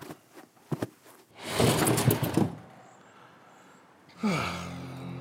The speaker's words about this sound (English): Hey, is it getting a little warm in here? Let me open a window.